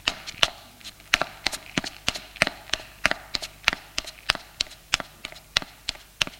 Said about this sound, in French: L'homme sort. Et descend les escaliers.